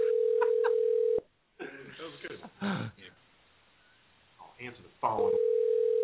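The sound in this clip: A telephone tone sounds as a steady, unbroken pitch at the start, cuts off while people talk, then returns at the end.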